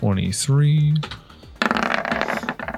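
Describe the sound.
Dice are rolled for an attack in a tabletop game, rattling and clattering in a quick burst of many small clicks and knocks right after a short stretch of speech.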